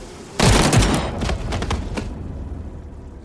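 Firing squad rifle volley in a close-range execution: one loud, sharp burst of near-simultaneous shots with a second crack close behind, then a long, rumbling decay.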